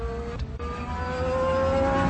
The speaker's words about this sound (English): drop about 5 stories before landing atop the roof of a familiar speeder that was zooming beneath them.